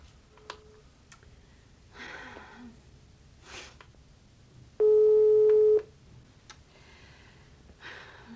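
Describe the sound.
A telephone call rings unanswered. One steady ringback tone lasts about a second, and a faint short beep comes earlier, over soft rustling and breathy sounds.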